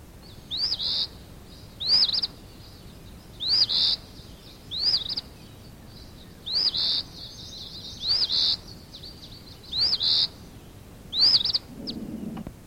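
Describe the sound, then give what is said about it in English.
Bird calls ring out as a regular series of short, high chirps, each burst separated by a quiet gap of about a second, with no voices present. “Bird number three. Bird number four.”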